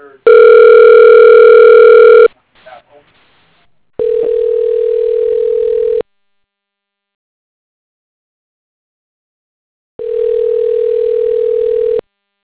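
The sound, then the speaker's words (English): Telephone dialing: a steady dial tone holds for about two seconds, followed by a quick scatter of dialing tones, then two long ringback tones separated by a stretch of silence. “Okay, dialing.”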